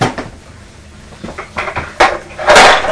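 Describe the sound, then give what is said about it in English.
Light clattering knocks as a toy truck bumps into an Easter egg box: a few soft taps and rattles, then a louder, rattling crash near the end. “Oh dear, what's happened to the truck? Did it collide with the Easter egg box? Did they bump into one another?”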